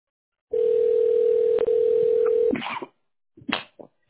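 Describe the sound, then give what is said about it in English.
A telephone ringing tone plays while a call is transferred to a construction company. One steady, mid-pitched tone holds for about two seconds, then cuts off, followed by a few faint, brief noises. “To reach an operator, please dial 0. Your call is being transferred. Please hold.”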